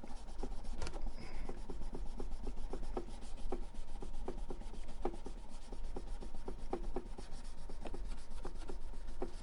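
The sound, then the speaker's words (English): Rubbing of a felt-backed, fine-grit abrasive pad across a surface: many quick, evenly spaced strokes with a soft, dry rasping texture, steady and fairly quiet throughout, with no voices. “The back is a felt and the front just has a little tiny grit to it. So let me do this final pass.”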